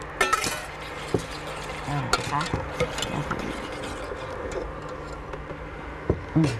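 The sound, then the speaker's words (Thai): A utensil stirring a melted cream mixture in a pot just after the oil phase is poured in: light, irregular clinks and ticks over a soft, steady scraping swish. “อาจารย์ยกลงเลยค่ะแล้วก็จะเทพาร์ทน้ำมันนะคะเทลงไปเลยค่ะอาจารย์คนได้เลยค่ะ”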